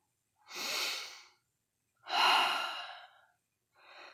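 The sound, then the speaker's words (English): Heavy breathing while catching breath: two long, loud breaths, then a shorter, fainter third, with no other sound. “I still need to catch my breath.”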